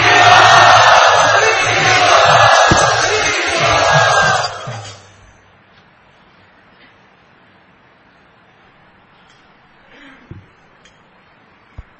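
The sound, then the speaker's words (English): An audience loudly chants in welcome at a devotional gathering, many voices together in a loud, sustained chorus that cuts off after about five seconds, leaving near silence with a few faint clicks. “So let us welcome them in our traditional style by loudly chanting.”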